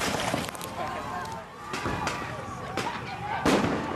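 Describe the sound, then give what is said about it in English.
Several sharp bangs, likely smoke bombs and tear gas canisters being fired, punctuate a standoff between police and protesters after a police shooting in Minnesota. The bursts come at irregular intervals over steady crowd noise. “There's a standoff between police and protesters here. Smoke bombs have been fired, tear gas have been fired after a shooting”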